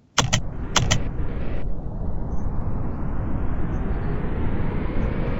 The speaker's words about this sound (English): I have my volume set to 30 because 80 and 100 is way too loud, at least for this plane. And the plane sounds like this.